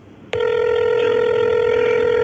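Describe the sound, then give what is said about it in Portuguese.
A telephone ringing on a Friday afternoon call: after a brief moment of low noise, a bright, steady electronic ring with rich overtones starts abruptly and continues unbroken to the end. “E o telefone começa a tocar, tem 5 toques para atender.”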